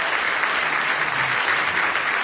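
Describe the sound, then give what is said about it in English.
Congregation applause during a church praise service: dense, steady hand clapping that holds at an even, loud level for the whole short stretch, with no voices standing out. “Now give the Lord another big hand clap of praise.”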